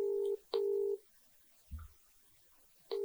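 Telephone keypad tones sound as a phone number is dialed: three steady electronic beeps with pauses between them, the last cut off at the end. A soft low thump falls in the gap.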